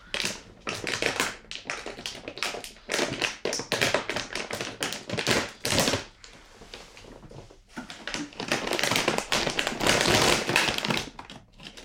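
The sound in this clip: A snack package is torn open with loud crinkling and crackling plastic, many rapid sharp bursts in irregular clusters separated by short pauses throughout.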